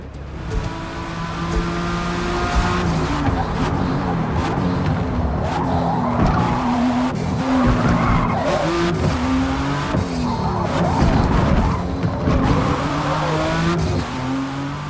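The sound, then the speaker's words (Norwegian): A race car at full throttle on the Le Mans circuit in a racing video game, with a continuous loud engine roar stepping in pitch as gears change, plus bursts of tire squeal and skidding. “Few tracks are more recognizable than Le Mans. With so many long straights, you'll be at full throttle around 85% of each lap.”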